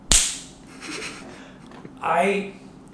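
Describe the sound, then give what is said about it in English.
A hand slapping a forehead gives one sharp, loud smack at the very start, followed by someone talking. “And this is the sound of my hand hitting my forehead, okay?”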